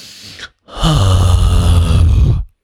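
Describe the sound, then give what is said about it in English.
Deep breathing close into a microphone: a short inhale, a brief pause, then a long, loud exhale carrying a low, groaning voiced tone before it stops abruptly. “Breathe with me.”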